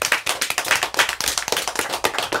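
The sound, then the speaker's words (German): Applause from a group of people in a studio: dense, brisk clapping with rapid irregular hand claps, fairly loud and steady throughout, no talk over it. “Applaus für dich.”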